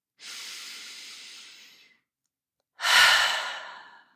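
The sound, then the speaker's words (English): A person takes a deep breath: two long breathy rushes of air with a pause between them, the second louder and stronger. No voices. “Whatever you're doing, eyes open, eyes closed, whatever you're able to do, just stop and take a deep breath.”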